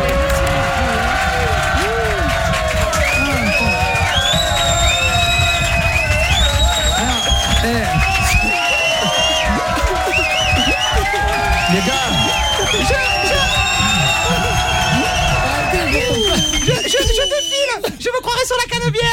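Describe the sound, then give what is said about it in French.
A studio audience applauding and cheering: a dense, loud, continuous wash of clapping mixed with excited shouts and screams that lasts throughout, with voices rising above the noise. “je voudrais qu'on applaudisse mes cousines cagoles.”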